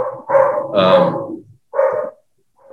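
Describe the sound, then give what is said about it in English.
A dog barks in the background in a few loud, mid-pitched barks, one of them drawn out and whining, with brief silent gaps between them. “You hear that dog barking in the background? Yeah, I can very clearly hear the dog barking.”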